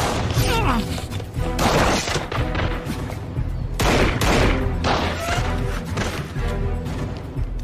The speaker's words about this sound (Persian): تکتیر انداز از بالای برد شلیک میکنه